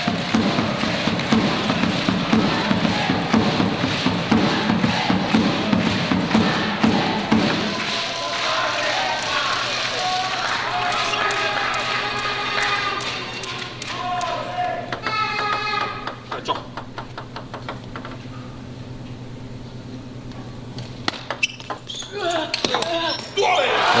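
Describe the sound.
Table tennis ball hits during a rally at game point in a match, heard as a few sharp, light clicks amid steady crowd noise and voices.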